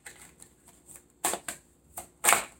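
Tarot cards shuffled and drawn, a few crisp papery riffles and slaps, with soft rustles early on and louder sharp bursts toward the end, no voices.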